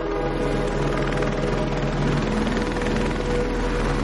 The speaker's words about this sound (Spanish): El helicóptero sube una camilla.